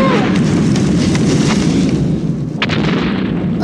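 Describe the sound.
Explosions from a carpet bombing raid on London merge into a loud, dense, continuous roar with scattered sharper bursts, heard alone without voices.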